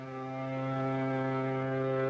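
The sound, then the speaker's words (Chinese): A steamship whistle sounds as passengers board for France, a single sustained low blast with rich harmonics that swells slightly at the start and then holds steady. “轮船汽笛再度鸣响。”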